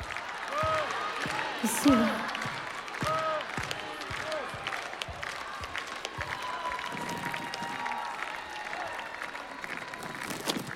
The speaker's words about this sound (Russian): Спасибо вам за терпение и за аплодисменты.